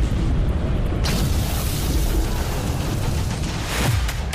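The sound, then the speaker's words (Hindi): Bombs from air strikes in Lebanon rumble and boom as a dense, continuous roar of heavy low-end noise, with a sharper burst soon after the start. “बरस रहे बम, air strike ने ली कई जान।”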